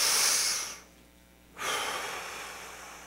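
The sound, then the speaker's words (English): A deep breath drawn in and then let out: two broad, airy rushes of breath separated by a short quiet pause, with the second sustained a little longer. No talk is heard. “Take a deep breath. Just and let it out. One more time.”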